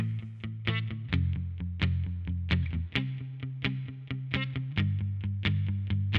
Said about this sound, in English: when you adopt this technique called palm muting, where basically the guitarist will rest the strumming hand's palm on the bridge